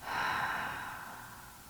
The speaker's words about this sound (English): take a moment, and do a deep inhale in and exhale out.